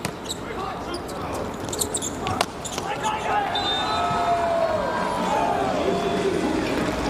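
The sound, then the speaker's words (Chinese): Gomolka serving in a volleyball match against Slovenia: a few ball bounces on the court and a sharp hit, under crowd noise and voices. “戈莫尔卡来发球”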